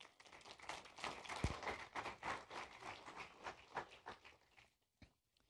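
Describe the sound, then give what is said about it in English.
Audience applause welcoming a speaker: faint, steady clapping that runs for about four and a half seconds, then stops abruptly. “So if you would, put your hands together and welcome me, please.”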